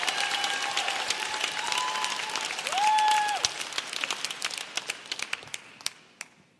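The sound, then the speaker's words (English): Audience applause for panelists at a discussion event: a dense, steady burst of many hands clapping that gradually thins into scattered individual claps as it fades out. “let's give it up for them! Bravo.”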